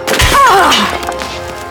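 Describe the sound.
A pot plant is smashed over someone in a single heavy, dull impact, with a brief voice sounding over it before the noise fades to a quiet background.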